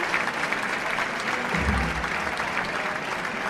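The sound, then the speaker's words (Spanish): An audience at a bullring gives a bullfighter a sustained ovation after he is awarded two ears. Dense, even clapping fills the whole stretch, and a brief low rumble swells up midway through. “Y ahí se va, recoge la ovación del público,”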